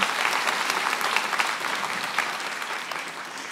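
Applause from a festival audience welcoming an author on stage for a writers' session: dense, steady clapping with no break, easing slightly toward the end.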